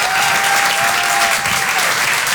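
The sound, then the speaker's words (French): Steady, dense applause from a comedy club audience at the Apollo Théâtre follows a stand-up set, holding at an even, full level throughout. “Merci beaucoup, faites un applaudissement pour notre MC.”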